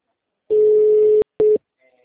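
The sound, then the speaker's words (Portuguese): Telephone tones sound as a call is placed again after a dropped line: a long steady low-pitched tone with buzzy overtones, then a brief gap and a second, much shorter tone, fairly loud, with no talking over them. “Oi, que a ligação caiu, eu tô te ligando.”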